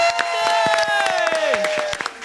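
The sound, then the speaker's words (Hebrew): Audience applause on a live morning show, scattered claps over a sustained, gliding tonal sound that runs through the whole stretch. “הנה זה קורה, מחיאות כפיים!”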